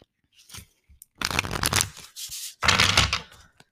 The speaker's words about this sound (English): I'm about to pull an animal card.